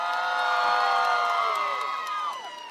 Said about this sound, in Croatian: Dajte još jedan veliki aplauz za Frenkija i njegove kolege.